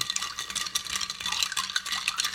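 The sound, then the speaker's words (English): A Negroni cocktail is stirred, making a quick, steady, bright clinking and rattling that runs continuously without voices. “there's something to keep people entertained while you're stirring the bejesus out of that drink”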